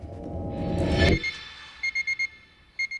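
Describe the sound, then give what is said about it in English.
An alarm clock at a hotel reception goes off in quick, high electronic beeps, a group of four, then after a short pause another burst, following a louder swell of other sound that fades away. “Sitting at the hotel reception, Okwe is woken by an alarm.”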